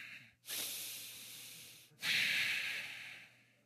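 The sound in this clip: A person imitates heavy breathing, as if sitting on a bed in tense silence beside a partner. There is one long, loud, hissing breath, a brief pause, then a second, stronger breath that slowly fades, with no other sound.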